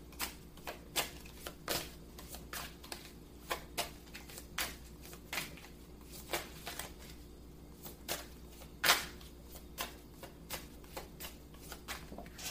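Tarot cards being shuffled and drawn for a reading: many soft, crisp card flicks and snaps at a fairly steady pace, faint against a low background hum.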